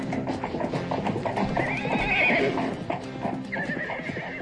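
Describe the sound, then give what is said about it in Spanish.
Horses gallop off with a steady, rapid clip-clop of hooves and a loud, high neigh rising over the hoofbeats partway through. No one speaks. “Ya se van cabalgando hacia el sol.”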